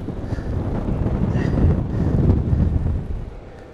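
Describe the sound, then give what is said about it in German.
Strong outdoor wind buffets the microphone in a continuous low, rumbling roar that swells and eases without a break, loudest through the middle and easing slightly near the end. “Ja, es ist eine ganze Menge Wind, wie ihr das alle merkt. Hier geht's richtig ab.”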